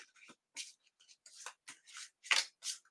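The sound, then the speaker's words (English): A Wisdom of Avalon oracle card is pulled from the deck, producing many faint, short papery swishes and rustles in an irregular rhythm, with no talking. “I am going to pull a Wisdom of the Avalon card. And this one is for everybody.”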